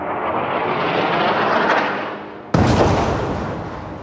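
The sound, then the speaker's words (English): Airstrikes and explosions hit the city of Rafah at night. A deep rumbling roar swells and fades, then a sharp blast cracks in at about two and a half seconds and trails into a decaying rumble. “And there were more deadly airstrikes throughout Rafah. Have a listen to what it sounded like last night in the city.”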